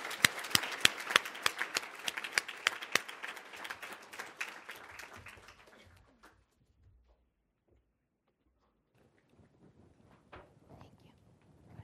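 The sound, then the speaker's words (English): Audience applause welcoming a panel: dense, steady clapping for about six seconds that thins out and stops, followed by near silence with a few faint scattered sounds. “So, again, put your hands together and welcome our tremendous panel this afternoon.”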